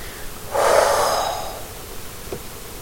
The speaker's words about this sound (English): Nice deep breath in through the nose, into the chest, into the belly, and exhale your lungs completely empty through your mouth.